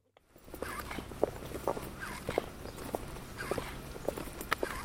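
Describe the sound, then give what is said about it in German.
Footsteps of a man walking on two robotic leg prostheses at ETH Zurich, with squeaking, whining motor sounds that rise and fall with his strides over soft, steady steps, all faint. “Das quietschende Geräusch kommt vom Motor seiner 2 Roboterprothesen.”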